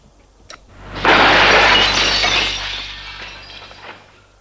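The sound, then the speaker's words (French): A glass bottle thrown to the ground shatters in one loud crash, followed by tinkling fragments that fade over about three seconds. “Une fois que la bouteille est vide, Gilles jette à terre la bouteille qui se brise.”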